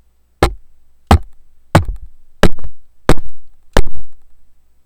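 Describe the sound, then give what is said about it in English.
Six sharp knocks on a wooden desk, tapped to test how well a Labtec AM-242 microphone's desk stand rejects shock noise; loud, evenly spaced, dry hits, each followed by a short decaying rattle, with silence between them. “I'll start by tapping on my desk to see how much of that noise it can reject.”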